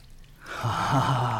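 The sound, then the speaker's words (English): Water pours as a sponge is squeezed out into a clean bowl, a steady splashing stream that starts after a brief quiet moment and keeps going at an even level to the end. “That's clean water going back in the clean bowl.”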